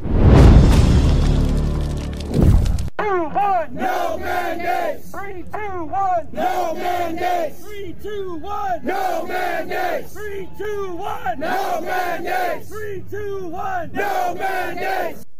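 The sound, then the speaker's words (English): A large crowd of firefighters protests COVID-19 mandates in Washington, D.C. A loud, noisy roar opens, then many voices chant together in a steady, repeated rhythm. “Firefighters. That's what you're looking at there. Firefighters from across America coming together in Washington, D.C. to protest COVID-19 mandates. Over 30,000 people in Washington this weekend.”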